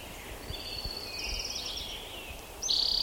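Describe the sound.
An orange-crowned warbler sings in the background, its thin, high trills laid over a steady hiss of outdoor noise. A brighter, louder trill comes in near the end.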